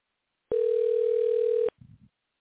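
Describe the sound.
Ringing tone heard while placing a phone call: one steady, single-pitched tone lasting about a second that cuts off abruptly, followed by a brief low, muffled sound.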